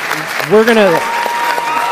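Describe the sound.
Audience applause greets a guest at a gathering: steady, even clapping throughout, with a voice rising briefly over it near the middle.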